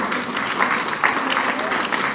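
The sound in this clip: An audience applauds with dense, steady clapping at moderate volume, with a few sharper hand claps standing out from the wash.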